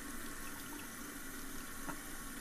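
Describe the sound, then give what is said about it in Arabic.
Running tap water flows into a sink while someone washes their face, a steady, even hiss of moderate level that continues without pauses and with no talking. “غسل وشك بالمي غسل وشك بالمي”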